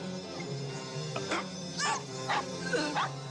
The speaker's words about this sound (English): Fucking hate those dogs.